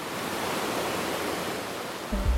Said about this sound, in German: Besonders, wenn wir jetzt noch mehr Wasser hier durchschießen lassen. Oh ja, jetzt sehe ich das. Die Schleusen sind geöffnet. Wassermarsch heißt es.